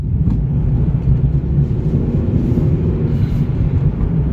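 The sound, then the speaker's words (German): A car drives into a forest in Graubünden with a steady, loud, low rumble of engine and road noise. The rumble stays even throughout, with no voices. “Wir fahren in den Wald oberhalb von der Minz.”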